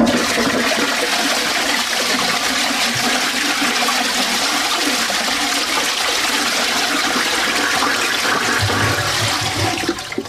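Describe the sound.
A toilet flushing: a loud, steady rush of water that fills the whole ten seconds and tapers off only at the very end, with no voices.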